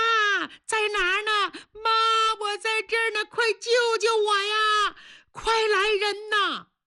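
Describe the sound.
A baby cries in many loud, wailing bursts, each pitched high and sliding down at the end, separated by short breaths and catches in a fast, uneven rhythm.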